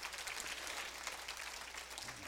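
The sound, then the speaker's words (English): Hand clapping in praise at a church sermon: a dense, continuous patter of many hands, steady and fairly faint, with no clear breaks. “I'll give God a hand clap of praise if you don't mind.”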